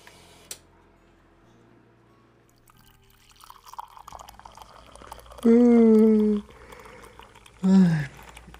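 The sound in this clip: Coffee is poured in the early morning with a faint trickle and drips under light ticking, followed near the end by two brief, louder tonal sounds.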